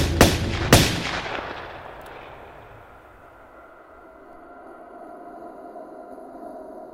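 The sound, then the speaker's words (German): Two sharp, loud gunshots crack in quick succession near the start, and a long rumbling echo fades away after them. Quiet ambience follows, with no talk. “Der Chauffeur, einer aus Wolfsheims Verbrecherbande, hörte die Schüsse.”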